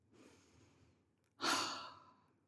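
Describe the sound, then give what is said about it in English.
A deep breath is taken: a soft, drawn-out inhale, then a louder, breathy sighing exhale that slowly fades. Quiet overall, with no talking. “Ugh. Deep breaths.”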